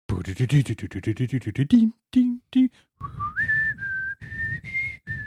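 A person whistles a television theme tune: a quick run of short notes, a few clipped tones, then longer, clear, high whistled notes with small upward slides.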